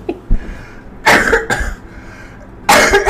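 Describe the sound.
Coughing from a woman, a few loud, harsh bursts with quiet gaps between them, the last ones rough and breathy.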